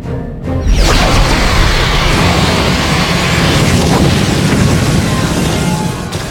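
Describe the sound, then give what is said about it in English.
Sci-fi starship weapons fire and an explosion: a sudden loud burst leads into a sustained, heavy roaring rumble with a broad whooshing hiss that stays strong to the end, with no talk. “Bridge to the armory. Guess who's back? We see them. Get a lock and stand by. We're ready, sir. Then fire!”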